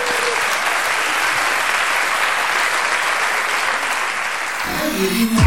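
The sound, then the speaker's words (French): Children applauding with dense, steady clapping that runs the whole time and swells slightly near the end. “pouvez applaudir les enfants.”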